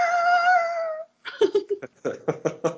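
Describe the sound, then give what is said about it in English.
A voice imitates an animal screaming outside: a drawn-out, harmonic wail about a second long, then a string of short, choppy vocal bursts after a brief pause. “There's an animal screaming outside, so sorry. Is it the cat under your deck? No, I don't know what it is, but it's literally going like,”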